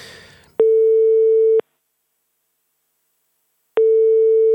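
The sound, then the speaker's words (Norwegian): A telephone ringback tone while a call is being placed: a steady single-pitched electronic beep about a second long, then silence, then the same beep again. The tone is loud, even and evenly spaced. “Så jeg tenkte vi skulle ringe til Tore Renberg, ja.”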